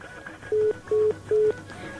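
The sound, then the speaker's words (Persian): Three evenly spaced, steady mid-pitched electronic beeps sound on a telephone line as a call drops. Each tone is short and equal in length, with a faint hiss between them. “متاسفانه تماسم قطع شد.”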